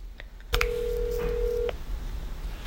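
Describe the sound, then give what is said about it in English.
A telephone call being placed as someone rings to check in: a few faint clicks, then a single steady tone holding for just over a second before it cuts off, leaving low background hiss. “She texted me she wanted to talk, so I'm calling to check in.”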